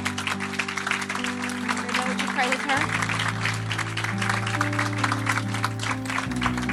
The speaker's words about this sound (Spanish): Give her a hand. Alguien aplauso, un aplauso.